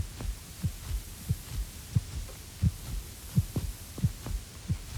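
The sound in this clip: A heartbeat sounds as a steady, regular run of low, muffled thumps at a calm, even pace, alone and without any voices.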